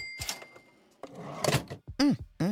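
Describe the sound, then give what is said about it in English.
A cash register sound effect: a clatter of mechanical clicks and a drawer thunk, followed by two short, loud pitched tones. “Oh, I would imagine it's a cash register. No, you got it.”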